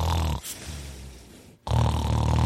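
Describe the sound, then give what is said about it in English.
Loud snoring from a sleeping person: heavy, rasping, low snores that swell and fade in a few long breaths, loud and alone. “How long are you going to snore? Am I supposed to just tell it over loud snores?”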